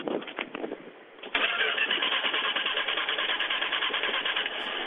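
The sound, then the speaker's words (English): A car engine suspected of a weak spark is cranked, then catches after about a second and settles into a steady, even running hum that holds to the end, with no talk over it. “Well, try to start it. Go ahead. Okay, leave your foot on the gas pedal. Don't touch it.”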